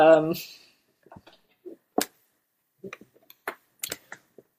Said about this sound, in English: Yeah, I was wondering if you could type the author of The Word of the Buddha.